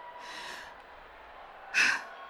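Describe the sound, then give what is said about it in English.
A deep breath in, taken during a calming breathing exercise: two airy, breathy rushes with no talk, the first soft and longer, the second louder and shorter. “Take a deep breath with me. Great. One more time. Breathe in deeply and try to relax.”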